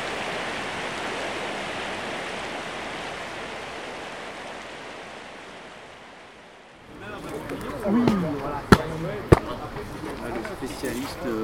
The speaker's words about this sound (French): Ainsi, les gens créent de petits barrages éphémères. Ils et elles regardent l'eau qui coule.